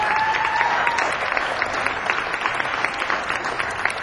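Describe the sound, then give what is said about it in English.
Audience applause for the sound crew and volunteers at a live music event, a steady, even patter of many hands clapping at moderate level without a break. “So let's give the sound crew and the volunteers a hand.”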